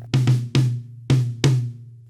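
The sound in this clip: A snare drum from a drum set is played with its snare wires switched off, five hits in an uneven rhythm, each a rounded, hollow, tom-like thump with a low ringing tone and no rattle.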